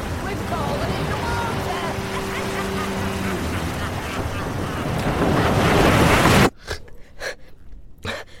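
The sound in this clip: An ocean wave hits with a broad, roaring wash that builds to a peak and then cuts off abruptly. A few short breathy vocal sounds follow.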